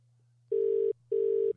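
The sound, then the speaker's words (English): Ringback tone of an outgoing telephone call, heard alone over a faint low hum: two steady, even-pitched buzzing bursts of equal length separated by a short pause. “Ringing. It's good news. It's going to pick up.”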